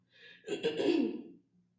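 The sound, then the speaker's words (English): A person clears their throat once, a single rough, breathy rasp lasting about a second, heard alone against quiet. “I was clearing my throat though.”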